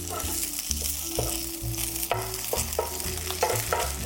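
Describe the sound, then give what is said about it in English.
Mung bean pancake frying in a pan, with a steady crackling sizzle as a large spatula scrapes and slides underneath it in repeated short strokes; no talk. “Sliding my spatula underneath my pancake here.”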